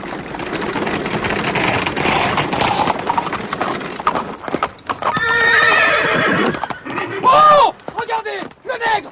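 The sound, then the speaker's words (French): Runaway carriage horses gallop with rapid, clattering hoofbeats, then whinny loudly several times, with shouting voices mixed into the commotion. “Écartez-vous! Écartez-vous! Place! Des chevaux emballés!”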